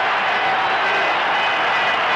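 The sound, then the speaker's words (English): Football crowd cheering at the Oakland Coliseum, a dense, roaring wall of voices that stays loud and unbroken throughout. “The crowd going wild here at the Coliseum.”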